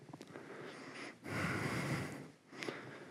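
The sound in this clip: Breathing during a yoga pose in a sun salutation sequence, arms raised toward the ceiling: a long, forceful breath through the nose in the middle, framed by shorter, sniffy breaths before and after.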